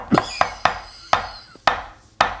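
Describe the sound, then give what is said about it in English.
Six sharp hammer strikes on a nail, each a loud crack with a quick, ringing decay, spaced unevenly with short pauses between blows and no talking. “Hit the hammer. Do it. You want the job. Okay. You gotta hit the hammer.”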